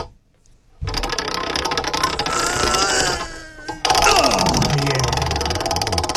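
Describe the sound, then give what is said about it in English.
Rapid ratcheting clicks of a game-show prize wheel spinning, a dense, loud run of ticks that briefly thins out before surging back even louder and carrying on steadily to the end. “It's time to spin the wheel of 1,000 questions.”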